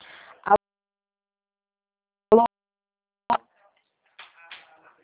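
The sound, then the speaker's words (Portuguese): A phone is dialed for a call, producing three short, sharp electronic beeps spaced apart, followed by a fainter cluster of tones, all with a thin, narrow telephone-line sound. “Tô ligando pro Fernando agora.”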